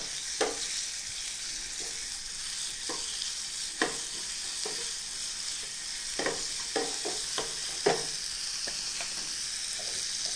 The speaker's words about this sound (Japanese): これもだいたいヘラで混ぜながら30秒ほど炒めていただければ結構